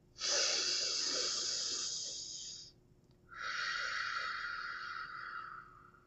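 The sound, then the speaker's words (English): Deep breaths during a guided breathing exercise: two long, airy breaths, each lasting a couple of seconds, separated by a short pause. They are heard alone and fairly softly. “Breathe in.”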